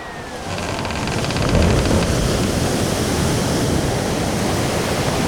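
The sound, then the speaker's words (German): Roaring storm at sea at force 9 to 11 aboard a ship bound north-northwest for Crete, a continuous loud rush of wind and crashing surf that swells slightly early on and then holds steady without talk. “Kurs Nord-Nordwest. Zwischenziel Insel Kreta, Sturmstärke 9 bis 11, an Bord Hans Tucher aus Nürnberg.”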